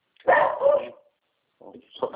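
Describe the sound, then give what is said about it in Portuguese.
Dogs barking in a few loud bursts: a longer, rougher run of barks first, then a pause and two shorter, quieter barks close together. “Esses cachorros aqui já falam.”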